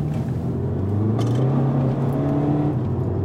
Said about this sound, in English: So what's that doing there? Is that the diesel bogging between? No, that'd be a traction. That'd be a traction control.